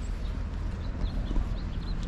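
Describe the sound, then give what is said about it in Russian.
Small birds singing outdoors: faint, scattered high chirps over a steady, low outdoor background rumble. “Вот, видите, птички поют. Птички божьи поют.”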